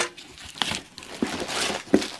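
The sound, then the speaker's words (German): Packaging crinkles and crumples as a wrapped parcel is opened with a box cutter. Soft rustling is broken by a few sharper crackles, with no voices. “und ich werde das Ganze jetzt mal live öffnen. Mal gucken, was da so alles drin steckt. Hoffentlich hat er nicht zu so gut eingepackt.”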